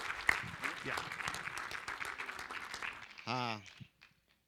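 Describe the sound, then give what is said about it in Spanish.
A church audience applauds a couple with steady, lively clapping for about three seconds. A short spoken phrase follows as the clapping dies away, then quiet. “Dele un aplauso a Dios por la vida de ellos.”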